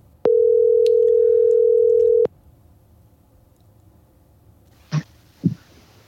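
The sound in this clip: Ringback tone of an outgoing telephone call: a single steady electronic tone sounds for about two seconds, then stops, leaving near silence, followed by two brief soft noises.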